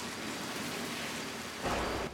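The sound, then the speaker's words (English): Steady, dense rain hisses without a break, and a brief low rumble of thunder swells near the end. “Peter walks off into the rain. As lightning flashes outside, Isaac”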